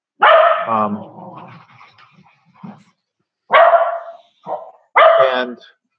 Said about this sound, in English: I'll back up and say it again since the dogs are barking.